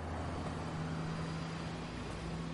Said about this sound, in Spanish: El coche se marcha.